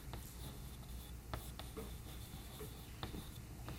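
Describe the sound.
Writing by hand: faint scratchy strokes and small taps in an irregular rhythm, quiet and with no talk.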